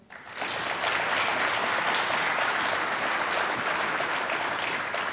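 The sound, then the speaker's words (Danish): Audience applause welcoming a physics professor at a university event, swelling quickly from a few claps into a dense, loud wall of clapping that holds steady to the end. “Giv ham en stor hånd.”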